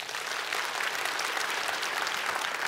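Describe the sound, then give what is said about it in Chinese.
A church audience claps in thanks for volunteer ministry teams, producing a thick, continuous wash of applause that stays loud and even throughout, without any voices on top. “那么给他们一个鼓掌来”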